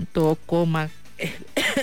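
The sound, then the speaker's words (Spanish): Coughing fit: a few raspy, partly voiced coughs burst out one after another in quick succession, fairly loud and with no talk over them. “Ay, perdón, me dio la tosedera”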